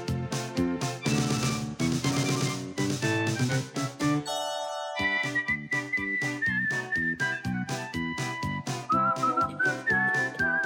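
A whistled melody in a children's song, taking over after a loud instrumental opening and continuing as a clear, bright line above a bouncy, steady musical beat.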